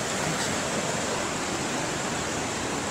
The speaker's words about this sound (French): Voilà, donc là c'est la rivière.